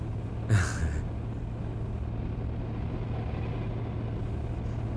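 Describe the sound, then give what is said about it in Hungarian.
Steady low engine rumble of a BMW car driving, constant and even throughout, with one brief louder noise near the start and no talk. “Jó kis kocsi ez a BMW. Megjárja.”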